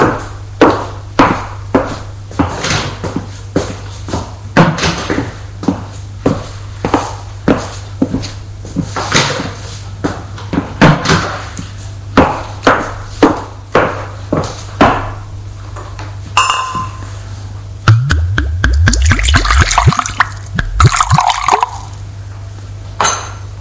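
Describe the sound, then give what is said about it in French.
Someone getting a glass of water in a kitchen: a long run of regular knocks and clicks, then cupboard sounds and a short, bright burst of water pouring and splashing near the end. “il va à la cuisine pour boire un verre d'eau.”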